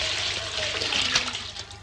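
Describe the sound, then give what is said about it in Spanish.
Water poured from a pot into a cauldron in a kitchen makes a steady, rushing gush that holds fairly even before easing off slightly toward the end. “Trae el agua. En la cocina la criada le alcanza un perol. Cuida. Lo vierte en un caldero.”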